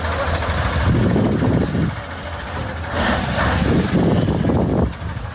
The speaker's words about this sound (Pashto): دا د اورزګان او کندهار د لوی لارې پر سر غټ موټرونه دي چې د کوچنی موټرو سره مرسته کوي ترڅو له لوړو او ژورو یې تیر کړي او له خټو یې راوځي.